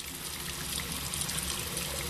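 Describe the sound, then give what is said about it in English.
Water running from a household tap at home, a steady, even rush of flowing water that holds without a break from start to finish. “Here's something that's easy for a lot of us to take for granted: water flowing out of your tap at home.”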